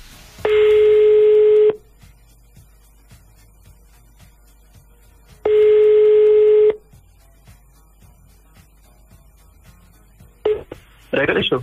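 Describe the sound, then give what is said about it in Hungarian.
An outgoing telephone call rings as a caller is dialed: two long, steady ringback tones several seconds apart, then a few short bursts of noise at the end. “Hívjuk a nap hallgatóját.”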